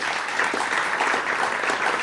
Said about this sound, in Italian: un applauso per lui